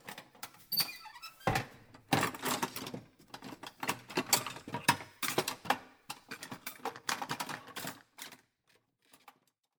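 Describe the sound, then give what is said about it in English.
Clicks and clatter as a paranormal toolkit case is opened and its contents handled: a dense run of sharp clicks, knocks and squeaks for about eight seconds, then a few faint taps. “I got curious as to what is inside these paranormal toolkits, so come with me as I open it up and see what's inside.”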